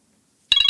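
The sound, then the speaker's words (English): A timer going off: after a brief silence, a bright, high electronic ringing tone starts abruptly and pulses rapidly, loud and alone. “it's our timer.”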